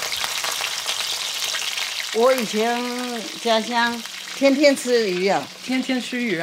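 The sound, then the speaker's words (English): Loud, steady sizzling of hot oil as butterflied, scored fish deep-fries in a wok. A voice sounds over the crackle after about two seconds and keeps going to the end. “But they're just as good for butterflying and flowering before a deep fry in the wok.”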